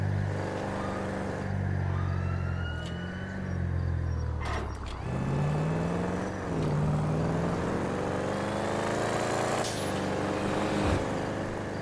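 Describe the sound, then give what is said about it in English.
A car in a police driving video game revs its engine loudly, the pitch surging up and down several times, with a few sharp knocks as it bumps into a guardrail. “disregard that little crash. I did not mean to bump into the guardrail.”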